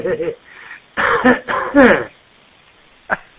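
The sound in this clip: Coughing and throat clearing from people taking turns over a narrow-band line: a short rough burst at the start, a longer run of harsh, partly voiced coughs in the middle, and one brief sharp cough near the end.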